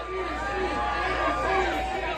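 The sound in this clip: Crowd chatter at the Rebel Lounge before a concert, a steady murmur of many overlapping voices over a low hum.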